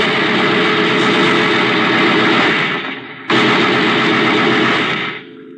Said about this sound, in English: Whichever one of you fired that shot... and all the other shots at all the other helpless people in the world.